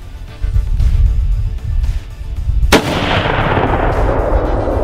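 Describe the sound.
A rifle shot is fired at a deer while hunting: one sudden, loud, sharp crack over a low rumbling background, followed by a lingering noisy tail.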